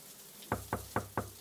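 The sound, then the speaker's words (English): Knocking on a door: five quiet, evenly spaced knocks in a steady rhythm, each a short, dull thud over a faint background hiss, with no voices. “I tried knocking and I guess you couldn't hear me.”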